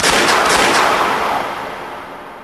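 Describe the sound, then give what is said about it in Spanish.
Gunshots from a gun drawn and fired at people, a loud burst of a few sharp cracks that fade into a long, noisy decaying tail, with no voices. “Saca su arma y nos dispara.”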